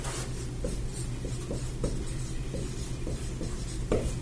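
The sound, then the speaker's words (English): Drawing on a board, with repeated short scratchy strokes in an uneven rhythm over a steady low background hum. “We'll draw it on the board one more time.”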